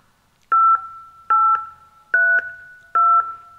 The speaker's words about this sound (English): If you know your health assistance extension, you may dial it now.